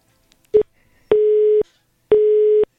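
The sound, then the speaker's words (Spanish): Telephone busy tone after a dropped call: three beeps at one steady middle pitch, the first short and the next two longer and evenly spaced, with nothing else behind them. “Sí, se le cayó la llamada.”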